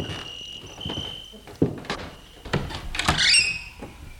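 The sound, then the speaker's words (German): A door opens with a few sharp clicks and knocks while crickets chirp steadily in the background; no voices. “Gehen wir rein, die Tür ist offen.”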